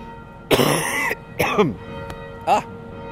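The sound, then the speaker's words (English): Coughing and throat clearing from dust caught in a person's throat: three rough, moderately loud bursts with no talk, the first the longest and the later two shorter. “excuse me. Something in my throat.”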